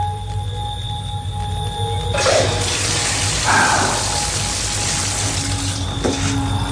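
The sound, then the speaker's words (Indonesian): Water is poured to flush a toilet after urinating in a dark bathroom during a power outage. A steady hum runs first, then a broad, rushing splash begins about two seconds in and continues to the end. “Setelah buang air kecil dan menyiramnya, tiba-tiba ada yang mengetuk pintu.”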